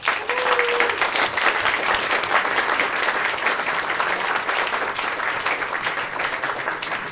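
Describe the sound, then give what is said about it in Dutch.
Loud audience applause as a guest is invited onto the stage at a magazine presentation evening in Amsterdam: dense, continuous clapping that stays steady for several seconds with no voices over it. “Een heel hard applaus.”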